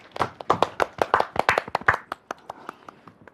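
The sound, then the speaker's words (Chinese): Audience applause welcomes a performer, a young dance student, with many sharp, distinct hand claps that come thick at first and then thin out into scattered, softer claps. “接下来我们掌声有请小奥哥哥。”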